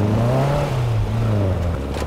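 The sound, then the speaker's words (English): A dune buggy's engine, out on all-terrain ground at night, revs in a throaty, sustained drone whose pitch wavers up and down through a few surges, with no talk. “The buggy's the best thing for all terrain. We are not getting stuck out here.”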